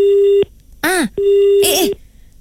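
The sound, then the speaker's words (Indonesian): Telephone line tone after a call suddenly cuts off: two steady buzzing beeps, each about half a second long, with a voice speaking in the gaps between them. “Tiba-tiba putus pula.”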